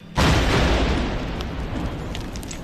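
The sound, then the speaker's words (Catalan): A controlled detonation of a loaded 75 mm Civil War artillery shell erupts in one sudden, very loud boom. A broad rumbling roar follows and lingers, fading only slowly to the end. “Este és el so d'una de les detonacions controlades.”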